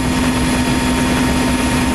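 Loud, steady helicopter roar from a helicopter flying low around a city with its door open, a constant dense wash of rotor and engine noise with a faint steady hum running through it.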